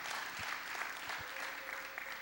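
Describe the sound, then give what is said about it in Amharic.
Applause during a church service, a brisk dense patter of many hands clapping at steady loudness, with a few heavier low thumps mixed into the clapping. “ሲልልታ ጭብጨባ ለጌታ ጌታ የተባረከ ይሁን።”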